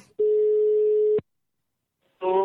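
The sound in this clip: A telephone call is placed and the line rings: a single steady, mid-pitched ringback tone lasts about a second, then silence follows. A voice then picks up and starts talking.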